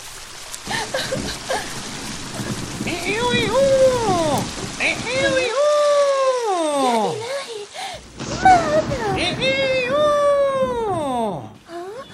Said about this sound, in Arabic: لقد توقف المطر، الحمد لله توقف المطر